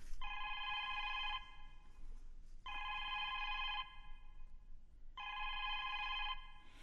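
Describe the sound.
A telephone rings with three evenly spaced bursts of a bright electronic trill, each lasting about a second with short pauses between, heard faintly.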